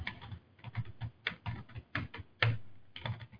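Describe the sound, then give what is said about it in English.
Computer-keyboard typing as a name is entered to sign an application: a rapid, uneven run of many crisp plastic key clicks in short bursts, with no voices. “So you'll type in your name to sign that.”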